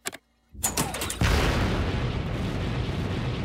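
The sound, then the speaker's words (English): Spaceship retro rockets firing: a short crackling burst, a moment of silence, then a booming ignition that settles into a loud, sustained, rumbling roar. “In space camp, we learned about countering forward momentum with retro rockets. If we use them now, the ship might slow down enough for gravity to pull us out of orbit.”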